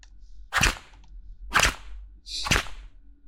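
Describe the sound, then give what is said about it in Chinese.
Three sharp whip cracks, evenly spaced about a second apart, each a loud, bright snap that dies away quickly. “听到了吗？这鞭子要是落在宝贝白皙的皮肤上，可就不好了。”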